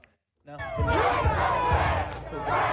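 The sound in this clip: Audience cheering and applause as guests are welcomed onto a live show. After a brief silence it bursts in and holds loud and steady, thick with whoops and shouting voices, for over two seconds.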